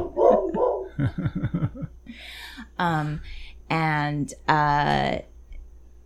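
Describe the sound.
A dog barks and yips a few times, with sharp, tonal bursts that stand out over a person talking.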